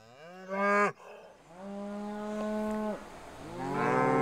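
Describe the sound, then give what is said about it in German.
A mother cow moos beside her young calf: three long, loud harmonic moos with steady low pitch, the first rising and cut off sharply, the others drawn out and tapering, with no talk. “Noch weicht das Kalb der Mutterkuh nicht von der Seite.”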